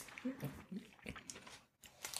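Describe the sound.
Crunchy chewing of Maltesers chocolate balls, with a few crisp bites followed by wet, crackling mastication and mouth noises that stay close and fairly quiet.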